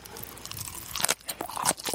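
Crunchy food is bitten and chewed, giving many quiet, crisp crunches in an uneven rhythm that grow denser and sharper toward the end, with no talking.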